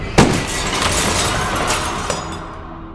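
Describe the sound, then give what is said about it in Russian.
Shop window glass shatters from a revolver shot: one sharp, loud crash, then a dense, continuous spray of breaking and tinkling glass that slowly fades over about three seconds. “Когда дым от выстрела рассеялся, я увидел разнесенное вдребезги стекло витрины и никого за ним.”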